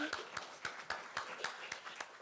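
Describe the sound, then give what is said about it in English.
Audience clapping at a school speaking event comes as a fairly faint, evenly spaced series of sharp claps, about eight in a steady rhythm, each short and crisp. “Should we just give them a little clap?”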